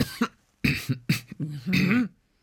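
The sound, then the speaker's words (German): Muffled coughing with the mouth kept closed comes as a few voiced, throaty bursts. The last burst is longer and more drawn out. “Können wir denn ohne Mund husten, also mit geschlossenem Mund?”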